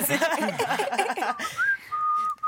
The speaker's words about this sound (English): What's the last song, modern, that you could whistle to?